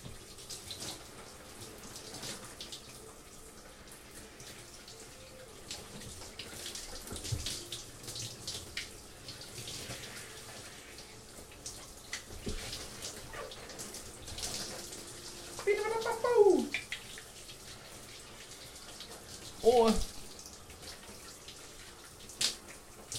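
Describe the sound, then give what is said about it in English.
Running water as someone washes their belly: a faint, steady watery hiss with scattered splashy bursts. A few sharper, louder splashes and squeaks stand out near the end. “I'm just washing my belly.”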